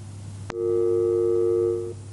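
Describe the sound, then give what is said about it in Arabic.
A telephone busy tone sounds after a phone call drops: one steady, loud, even tone held for about a second and a half over a constant low hum. “للأسف انقطع الاتصال، ناخذ اتصال آخر.”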